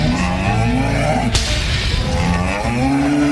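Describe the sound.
A buffalo lowing in long, deep, moaning calls, with a single sharp whip-like crack near the middle, at a live show.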